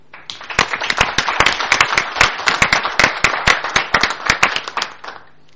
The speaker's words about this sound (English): if I might ask that we pass that resolution by acclamation.